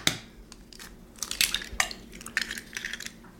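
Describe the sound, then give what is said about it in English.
Eggs are cracked on the flat surface of a kitchen counter, giving several sharp, quiet cracks and crunchy shell snaps scattered irregularly across the moment, with faint clinks and no talking. “I'm going to crack my eggs, not on the side of the bowl, which is just going to push the eggshell right into the egg, but on the flat surface of my counter”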